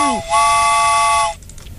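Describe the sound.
A train whistle sounds as one steady, bright, harmonic blast lasting about a second, loud and alone, preceded by a brief falling swoop and ending abruptly into faint background noise.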